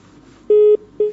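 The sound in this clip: Telephone disconnect tones as a phone-in caller's line drops, two steady low beeps with the second cut short.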